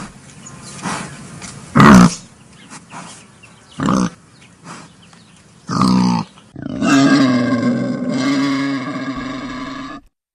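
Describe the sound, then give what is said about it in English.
Grunting of a wild boar: three short, loud, rough grunts about two seconds apart, then a long, sustained, tonal growling call that holds steady for several seconds before stopping. “that's a wild boar”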